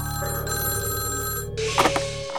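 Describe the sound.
A telephone bell rings with a bright, steady, metallic trill at moderate loudness. Near the end a brief burst of noisier clatter cuts in.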